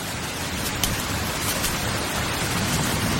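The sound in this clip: Steady rain makes a dense, even hiss with scattered drop taps, continuous and unchanging throughout.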